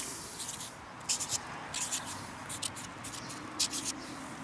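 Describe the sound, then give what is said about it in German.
A signature is written on a stove tile: faint, scratchy scraping strokes in a few short irregular bursts over a steady low background hiss. “Jetzt darfst du auf die andere Seite schreiben.”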